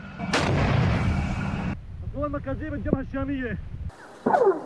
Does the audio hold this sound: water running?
no

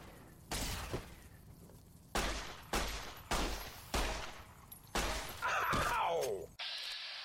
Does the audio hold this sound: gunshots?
yes

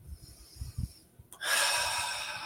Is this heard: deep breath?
yes

